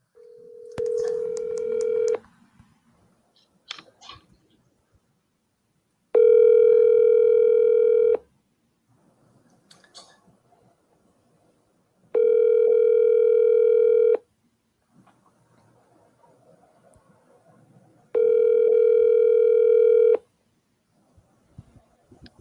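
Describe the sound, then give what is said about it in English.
Ringback tone of an outgoing telephone call to a friend, with four steady two-second tones spaced a few seconds apart and faint clicks in the quiet gaps. “gonna go ahead and we're gonna dial up our buddy Molaris”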